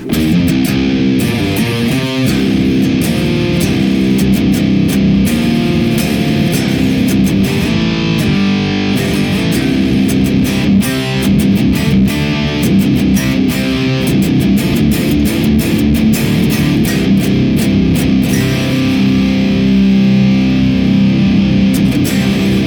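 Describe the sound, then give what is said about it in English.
Distorted electric guitar played through a blend of an Iron Drone Green KT-88 and a Dora ODR Mesa Giant amp, a dense, saturated riff with steady chugging attacks, loud and unbroken, with no talk. “first blended example is going to be using the Iron Drone Green KT-88 on the left and the Dora ODR Mesa Giant on the right. And it sounds like this.”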